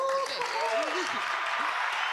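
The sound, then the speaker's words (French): Steady audience applause at a public event where proposals are being voted on fills the whole stretch, with a voice talking over it near the start. “Ensuite, on applaudit le public.”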